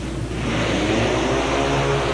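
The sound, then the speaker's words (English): Motorcycle engines roar as a hardtail Harley and a 750 Triumph race in a vintage twins main event, a loud, broad, continuous drone with no voices. “on that hardtail Harley still hanging on to second place behind the 750 Triumph.”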